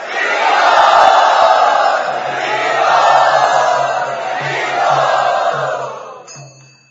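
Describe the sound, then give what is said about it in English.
A loud audience cheers to welcome a guest, a roaring mass of shouts and whoops that swells in waves before fading away at the end. “Let us very enthusiastically and loudly welcome Shamdas”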